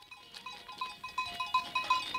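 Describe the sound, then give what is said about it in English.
Faint bleating comes from a herd of goats and sheep moving up a steep mountain road in Lesotho, heard as many short, bright calls repeating in a quick, fairly regular rhythm. “A herd of goats, sheep, and cows ambles up a steep mountain road in the tiny country of Lesotho.”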